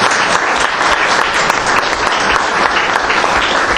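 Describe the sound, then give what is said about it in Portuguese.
Applause from an audience at a political campaign event introducing a municipal candidate's team: loud, dense clapping that stays steady throughout. “Peço uma salva de palmas.”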